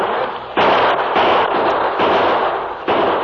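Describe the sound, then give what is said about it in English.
Gunfire in a shootout, with outlaws shooting from a building's back windows: loud, rattling bursts of shots in several overlapping volleys, with no voices. “They're shooting from the back windows.”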